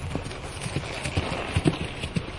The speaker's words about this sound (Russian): Принц внимательно выслушал старуху Дева, поблагодарил ее и поскакал по извилистой тропинке, уводящей высоко в горы.